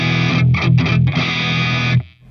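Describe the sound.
An overdriven electric guitar playing an E with no reverb: a few quick strummed hits run into a loud, gritty sustained chord that stops dead and dry at the end.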